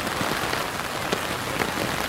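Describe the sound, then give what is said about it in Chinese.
Raindrops pattering on an umbrella in the rain, a steady, dense patter of many small taps with no pause and no voices. “这个雨滴滴答答打在雨伞上的声音，就像一首歌一样那么美。”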